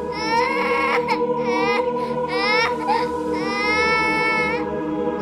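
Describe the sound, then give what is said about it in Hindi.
A young son wakes at night and cries: several drawn-out, high, wavering wails, each separated by brief catches of breath, sounding loud over a steady low background hum. “मेरे बेटे की एक अजीब सी आदत है उसे रात में नींद से उठकर रोने की आदत है”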